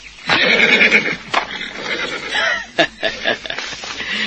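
A horse being ridden whinnies loudly in a long, wavering neigh of about a second, followed by a few shorter snorts and rough breathy noises.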